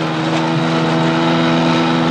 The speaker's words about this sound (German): Komm, versuch den Motor anzumachen. Okay, ich bin schon dabei.